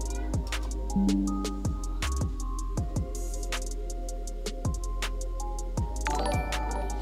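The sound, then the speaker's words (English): A Windows input switch notification sounds many times in an irregular run of short, bright chimes that each ring briefly and fade, some of them overlapping. “I hit input switch notification accidentally for Windows.”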